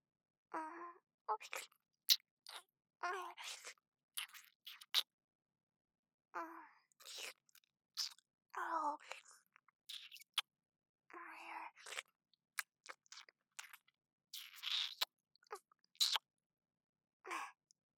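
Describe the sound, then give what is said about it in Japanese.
Chewing and crunching of Japanese dagashi candy, with many short, irregular bursts of moist mouth sounds and crisp bites separated by brief silences. “ええ、駄菓子を無駄になんてできませんから、ちゃんと全部食べますよ。”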